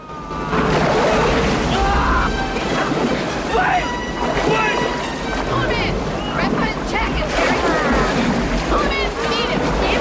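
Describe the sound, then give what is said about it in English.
A large wave breaks across a river boat's bow: loud, continuous rushing and splashing water with steady wind noise, turbulent throughout without a pause. “The boat dips, and a vast wave of water breaks across the bow.”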